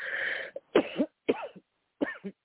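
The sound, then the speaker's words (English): Coughing from someone who feels they inhaled a bug: a series of harsh, raspy bursts in quick succession with short gaps, the first drawn out and the rest clipped, with no speech. “sorry, I have a cough. I feel like I inhaled a bug.”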